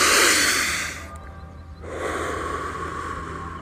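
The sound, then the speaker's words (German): A deep breath is drawn in through the nose as a long, airy rush, followed by a short quiet gap before more breath noise resumes at a similar steady level. “einen tiefen Atemzug zu holen durch die Nase.”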